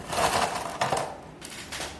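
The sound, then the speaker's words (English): Ice cubes dropped into a glass while a Negroni is being mixed make a few sharp clinking knocks, spaced apart at moderate loudness. “So I just have this glass with ice.”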